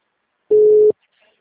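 A single ringback tone sounds on an unanswered phone call: one steady electronic beep lasting under half a second, surrounded by silence.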